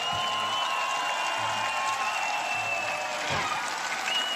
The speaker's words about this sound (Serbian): Jedan veliki aplauz za Miroslava Cvetkovića Cveleta.